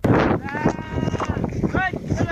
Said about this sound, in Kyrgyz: Сугарганы алып түшүп кеттасыңар койлорду. Көлгө алып барабыз сугарганы көлгө.